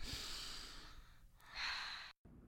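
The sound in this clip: A deep breath, with a long airy inhale, a short pause, then a softer, shorter exhale that ends abruptly in silence.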